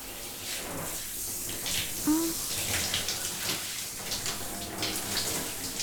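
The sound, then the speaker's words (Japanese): Warm water runs steadily while light styling product is rinsed out of hair during a shampoo, a soft, even splashing hiss that stays fairly quiet throughout. “今日つけていたのは軽めのスタイリング剤なので、お湯でしっかり流せば大丈夫そうです。”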